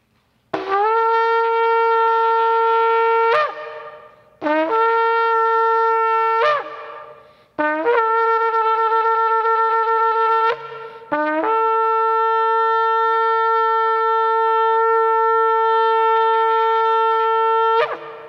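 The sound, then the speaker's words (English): A shofar is blown at a sacred prayer gathering in four bright, brassy blasts: three shorter calls followed by one long sustained note, alone with no talk. “The sacred gatherings of Israel were heralded by the sounding of the shofar, and this is a sacred gathering.”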